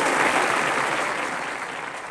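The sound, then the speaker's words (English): Audience applause for a performer at the front of a stage: dense, continuous clapping from many hands, loud throughout and easing slightly toward the end. “He stops at the front of the stage and laps up the applause.”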